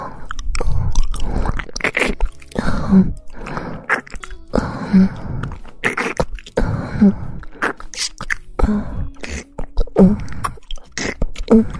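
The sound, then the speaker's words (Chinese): Close chewing and biting of a sausage, with moist, crunchy bites and mouth noises repeated many times in a steady rhythm about a second or two apart. “让姐姐帮你舔舔尝尝这根香肠到底是什么味道的。”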